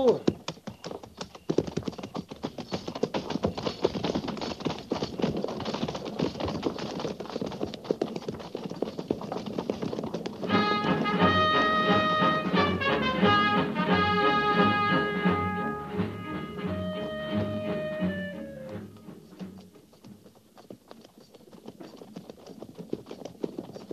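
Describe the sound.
Hooves of cavalry horses at a frontier army fort clip-clopping as the troop mounts and moves off by twos at a walk, many steady hoofbeats running throughout.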